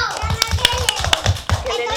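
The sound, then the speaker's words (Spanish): Scattered claps for a correct answer in a quiz game, sounding as quick sharp taps over children's voices and chatter throughout. “¡Bien, estupendo! ¡Fuerte aplauso!”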